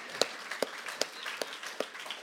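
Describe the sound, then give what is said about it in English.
A church audience clapping in unison for its children's ministry volunteers: six sharp, evenly spaced claps in a steady rhythm, fairly faint. “And sure, let's clap that out.”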